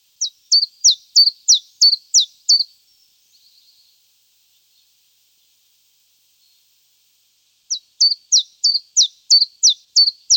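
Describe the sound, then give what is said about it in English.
Chiffchaff song: a series of sharp, high, evenly spaced notes in a quick repeated rhythm, then a long silence and a second burst of the same clear notes. “Chiff-chaff, two syllables but with an equal stress on each.”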